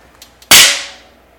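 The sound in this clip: A Mjolnir hammer strike against a chest as a sound effect: two faint ticks, then one loud, sharp crack whose bright ringing tail slowly fades away.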